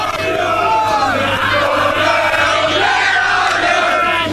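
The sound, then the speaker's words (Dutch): Football fans sing and chant loudly on the field after a championship win, a dense, steady mass of voices with wavering melodic lines and a constant low hum underneath. “Het is compleet feest hier op het veld. Op de Kouhoek. Waar dan het gezang duidelijk te horen is van Zwervers.”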